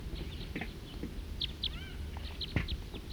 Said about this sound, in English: Lone perch bird and a large flock nearby. Stop. Two birds.